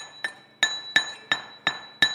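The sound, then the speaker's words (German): Six evenly spaced ringing taps as young men knock stones into sand in a pit in a workshop hall. Each strike is a sharp, bright clink with a short tail. “In einer Werkshalle in Frankfurt-Oder stehen einige junge Männer in einer großen Grube und klopfen Steine in den Sand.”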